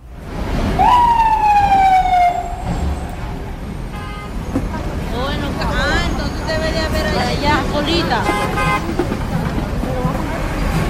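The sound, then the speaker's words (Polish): Police sirens wail through a busy Times Square street in New York, with one falling siren sweep early on and warbling siren tones later, over a steady bed of traffic rumble and city bustle. “jak sobie myślę o dźwiękach Nowego Jorku, to gdzieś koniecznie musi być policyjna syrena w tle. Bo te policyjne syreny non-stop tutaj słychać”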